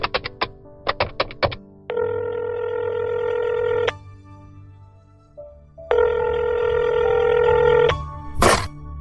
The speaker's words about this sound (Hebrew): אני חייב להתקשר לרבי.